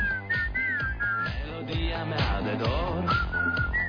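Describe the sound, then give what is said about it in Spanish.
Someone whistles a bright, melodic tune of several quick notes, with the pitch gliding between steady tones at an even loudness. “Va de silbidos, ¿eh?”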